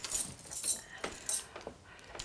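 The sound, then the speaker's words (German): A bunch of keys jangles in a few bright, metallic bursts of rattling. The sound is fairly soft and heard alone, with no talk. “Hier ist der Schlüssel.”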